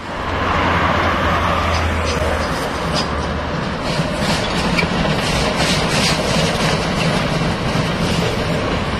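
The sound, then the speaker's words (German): A Class 95 steam locomotive chugs past modern railway locomotives near a crossing with a federal highway, making a heavy, continuous rumble and hiss. A low drone underneath fades after the first few seconds. “Vor der Kreuzung zur Bundesstraße 6 stampft unser 95er vorbei an den modernen Lokomotiven der Havelländischen Eisenbahn, die sonst die Strecke befahren, vornehmlich für Transporte der Fels AG.”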